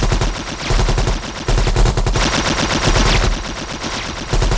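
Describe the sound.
Gunfire rattles in rapid automatic bursts, loud and dense, with many shots per burst and brief gaps between the strings of fire.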